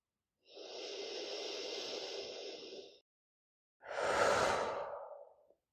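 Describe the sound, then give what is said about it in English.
Two long, deep breaths, an inhale and an exhale, each drawn out for a couple of seconds with a soft airy hiss and a short pause between them, heard alone without talk. “Take three deep breaths now. Exhale deeply. Inhale strongly.”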